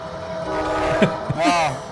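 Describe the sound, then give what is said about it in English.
A commuter train goes by, its sustained horn-like tones rising over a steady, fairly loud rumble that carries through the whole stretch. “And here comes the train that he tried to make sure didn't continue to run. that's the commuter.”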